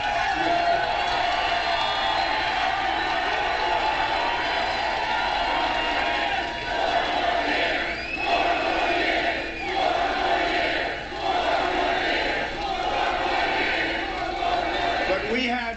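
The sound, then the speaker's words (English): A large crowd at a political rally cheers and shouts in a sustained roar, with whoops and chant-like voices rising and falling above it for the whole stretch. “I mean, even look today, with all going on, look at the kind of crowds we have.”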